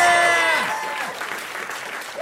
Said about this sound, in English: Please put your hands together for our best friend, Becky Lucas.